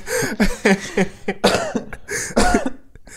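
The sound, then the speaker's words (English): Repeated coughing from a person: a series of harsh, throaty bursts with voiced rasping tails, fairly loud and irregular, with short pauses between fits. “I want to cough, and like, I don't want this coughing scene in like the thingy.”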